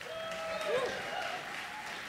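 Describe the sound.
Audience applause welcoming a blues musician to the stage, a moderate, continuous patter of clapping that holds at a fairly even level throughout.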